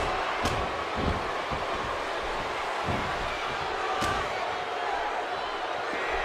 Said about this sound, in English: And a huge DDT.